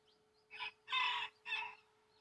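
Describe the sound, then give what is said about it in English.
Chicken calls: three short, harsh, squawking bursts with a brief gap between each, the middle one the longest, sounding on their own against a quiet background. “What's that? Oh, sounds like I've got some new chicks going on”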